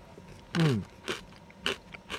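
Crunchy seed snack bitten and chewed, a cheese-flavored bean snack resembling sunflower seeds, starting with one loud bite and followed by three shorter, sharper crunches.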